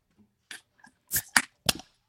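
A can of Born and Raised Blonde Ale cracks open with a few quiet, sharp clicks and short airy bursts spaced over a couple of seconds.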